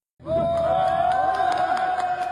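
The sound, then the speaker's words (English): Emergency workers cheering at a hydropower tunnel rescue in Nepal: shouts and whoops burst in abruptly after a short silence and stay loud, with a sustained high voice riding over the crowd. “Emergency workers cheered as they lifted the workers from the tunnel they had been trapped in for more than a week.”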